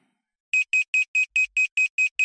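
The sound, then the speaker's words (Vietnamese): An electronic alarm clock rings out nine rapid, evenly spaced, high-pitched beeps after a brief silence, each beep sharp and identical. “Tiếng chuông báo thức lại reo lên, báo hiệu một ngày mới lại bắt đầu.”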